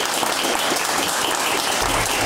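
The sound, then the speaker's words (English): An audience gives a big round of applause, with dense, steady clapping that stays loud and even throughout and is heard on its own without speech. “a big round of applause, please, for Anna Helvig”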